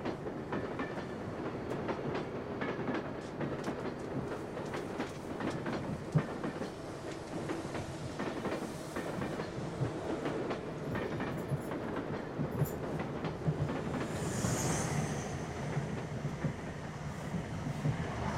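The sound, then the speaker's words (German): Inside a moving train from Tübingen to Salzburg, a continuous rumbling roar with scattered clicks and rail clatter holds at a steady, moderate level throughout, with no voices. “Mittwoch, 8 Uhr morgens, im Zug von Tübingen nach Salzburg.”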